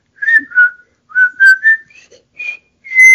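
Whistled tune, the theme from a 1957 war film, given as a string of short, clear, mid-high notes of shifting pitch with brief gaps, ending on a longer held note; no voices.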